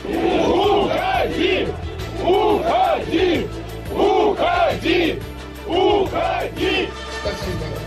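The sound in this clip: A crowd shouts in unison, loud chanted bursts repeating in a steady rhythm with short dips between each cry, many voices merging into one roaring call.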